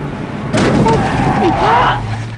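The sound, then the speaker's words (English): A pickup truck rams into the back of a car on a dusty road, a sudden loud crunching impact followed by sustained rumbling road noise. “Ryder rams him with the pickup that gave him a ride. Jim looks back over his shoulder as Ryder smashes into the back of him.”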